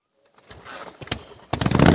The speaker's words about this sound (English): Can your bike bring the thunder? Can your bike bring the thunder?